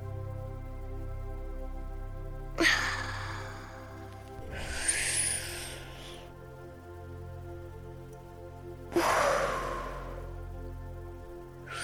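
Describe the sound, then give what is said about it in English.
Slow, deep breathing during a box breathing exercise: a few long, airy inhales and exhales, each lasting a couple of seconds and separated by pauses, over a soft, steady tonal background. “Let's do a box breathe. Let's do like five box breathes.”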